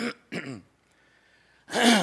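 Throat clearing in three rough, throaty bursts: two quick ones close together, a pause with a faint thin tone, then a louder, longer final rasp.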